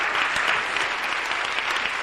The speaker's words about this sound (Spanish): Dale ese aplauso al Cordero de Dios.